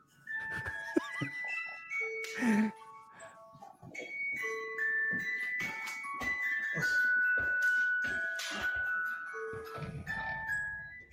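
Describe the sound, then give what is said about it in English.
An ice cream truck plays its tune, a jingly chime melody of sustained high notes that step between pitches, while people talk over it throughout. “is that an ice cream truck? What's the tune ice cream trucks always play?”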